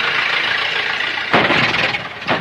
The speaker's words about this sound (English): To his left, an automobile approaches under a stone arch with an army officer in uniform at the wheel.